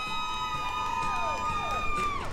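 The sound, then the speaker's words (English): Colleagues in matching outfits cheer on drivers at a school bus driving competition, a steady crowd din with a few falling whoops rising above it. “Colleagues from their home schools came in matching outfits, spectating and cheering their fellow drivers.”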